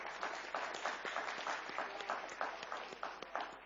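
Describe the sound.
Applause from a small group at a church gathering: a steady, fairly faint patter of hand clapping that lasts a few seconds without pause.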